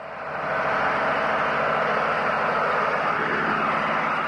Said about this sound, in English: That's the sound of a high-powered diesel pump sucking 1,000 gallons a minute from the aquifer beneath New Haven.